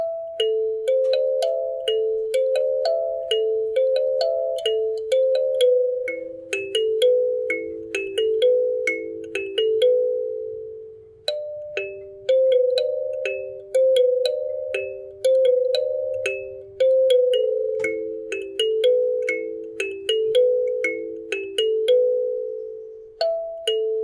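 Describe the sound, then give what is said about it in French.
A kalimba plays a melody of many plucked, bell-like metallic notes, each ringing and decaying before the next, in a steady flowing rhythm with repeated stepping phrases, heard alone without voices. “du coup, je joue, mais sur le vrai kalimba”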